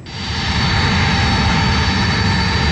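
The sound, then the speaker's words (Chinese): A Y-20 transport aircraft lands on a runway at dusk after a long-distance training flight, its jet engines swelling into a loud, steady roar that holds to the end. “随着最后一架运20平稳地降落在机场跑道上”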